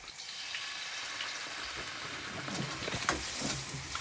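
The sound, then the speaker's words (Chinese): Cattail shoots stir-fried in a pan with chicken broth give off a steady crackling sizzle and hiss with scraping stirs, growing slightly louder toward the end. “翻炒，哎，2分钟即可出锅。”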